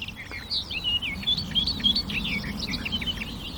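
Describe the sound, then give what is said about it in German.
A warbler sings continuously in high, rapid chirps, trills and twittering phrases that include imitations, over a steady low rumble. “Und all diese Ablenkungen meiner Wahrnehmung lässt einfach diese Grasmücke vor mir singen und singen und singen.”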